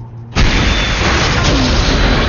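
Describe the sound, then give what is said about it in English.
A 122-millimeter artillery gun fires a round: one sudden, loud blast followed by a sustained, roaring rumble that holds steady to the end. “The Lyagushka jumped on its trails, belching flame and smoke. The 122-millimeter round sailed away.”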